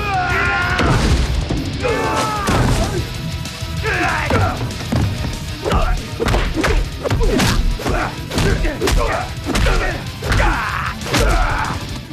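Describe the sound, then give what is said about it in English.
Heavy punches and kicks land in a fight as many sharp thuds, smacks and crashing hits in an irregular, rapid series, with vocal sounds scattered between the blows. “Scorpion's heavy punches knock Johnny back. Johnny catches hold of Scorpion's leg and flips him into the air, but Scorpion somersaults and kicks Johnny with both feet.”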